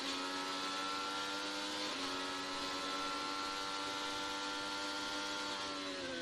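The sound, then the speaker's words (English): Onboard sound of a Honda-engined IndyCar race car running flat out down the front straight: a loud, sustained, buzzing engine whine. The pitch holds steady, apart from one brief break early on, and there are no voices. “And then Colton Herter in the background in that black and yellow Gamebridge Honda. He got by his teammate, Alexander Rossi. Let's go for a ride down the front straight as he works on Newgarden. Enjoy the ride.”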